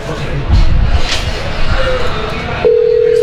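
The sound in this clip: A steady, unbroken telephone line tone sounds on an unanswered call with no signal, holding one even pitch for under a second at the end, after noisy, crowd-like background sound.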